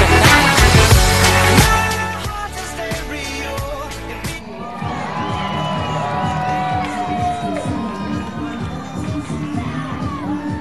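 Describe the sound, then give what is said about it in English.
Baseball fans cheer in the stadium after a Palm Beach Cardinals game against the Jupiter Hammerheads. A louder stretch at the start gives way to steady crowd noise, with whoops and shouts rising over a continuous murmur. “All right, you can hear the fans behind me as I get set for our post-game show”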